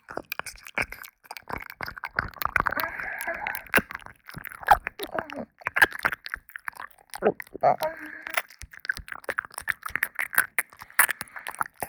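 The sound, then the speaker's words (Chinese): Crunchy chewing of a filled candy, many moist clicks and bites in an irregular run, with brief soft vocal sounds in places. “这个糖果是夹心的吗？这样啊，那小兔子可要更认真的吃了。”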